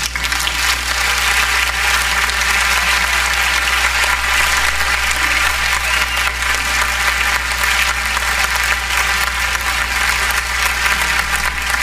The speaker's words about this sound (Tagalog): palakpakan natin.